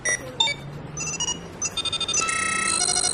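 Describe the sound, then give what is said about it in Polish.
An electronic ringtone for an incoming holographic voice call chirps in a string of bright, high melodic beeps, speeding into quick pulses and then a denser sustained chiming toward the end. “Uwaga! Przychodzące połączenie holograficzno-głosowe.”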